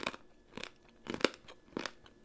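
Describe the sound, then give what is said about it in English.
Chewing stale, cracker-coated peanuts: soft, crisp crunches come in several separate bursts with quiet gaps between them, and no talking. “These might have been good at some point, but they're very old and they're very stale. It tastes like a stale cracker surrounding a peanut.”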